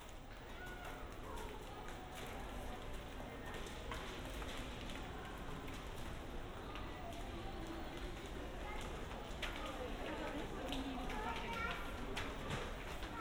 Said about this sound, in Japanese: ステージ2、ショッピングモールだよ。